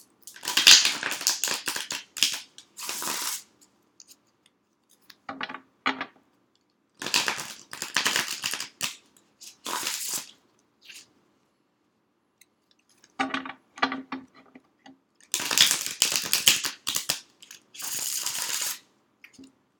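Tarot cards are shuffled by hand in several bursts of rapid, crisp riffling and flicking. Each burst lasts one to three seconds, separated by short silent pauses.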